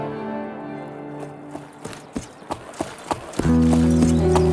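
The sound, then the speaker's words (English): Appaloosa horse hooves clip-clop as the horse is ridden into a frontier settlement in Wyoming Territory. A few sharp, evenly spaced hoofbeats sound over a steady tonal musical background that swells louder near the end. “Hatred filled the heart of the young man who rode a big Appaloosa into the settlement of Buffalo Flat, Wyoming Territory, at the southern end of its main street.”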